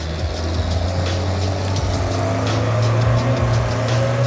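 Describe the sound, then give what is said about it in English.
Engine of a Bombardier all-purpose vehicle running after start-up: a loud, continuous low droning hum with steady harmonic tones and a rough mechanical rattle, holding an even level throughout with no talk. “The Bombi's just a really important tool to me. It's just an all-purpose vehicle for us during the summertime.”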